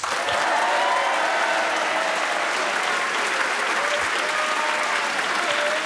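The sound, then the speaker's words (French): A large studio audience applauds as two young guests are welcomed on a radio show. The clapping is loud and continuous, with some crowd noise mixed in. “De beaux encouragements de notre public nombreux.”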